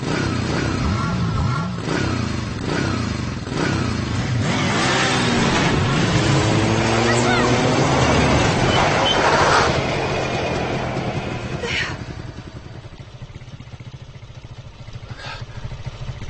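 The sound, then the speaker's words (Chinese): A motorcycle engine runs continuously as it is ridden, a dense rough roar that swells with revving through the middle and eases to a lower, quieter drone near the end. “骑摩托车的人见过不少了”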